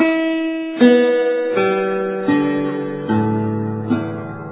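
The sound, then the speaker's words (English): A right-handed guitar flipped over for a left-handed player is strummed slowly from top to bottom, so the strings sound from treble to bass, each plucked note ringing on as the next one enters. “if a left-hander takes the guitar of a right-handed person and flips it over, suddenly the guitar will sound like this from top to bottom.”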